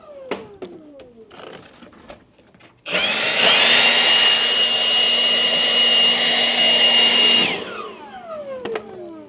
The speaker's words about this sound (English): I'm going to blow a little air in there for good measure.